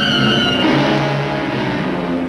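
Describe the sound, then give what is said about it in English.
Engine of a gas truck driving through a city street, a loud, steady rumbling drone with a slight rise in revs partway through, continuous from start to finish. “The gas truck moves through the city, the radio underneath humming.”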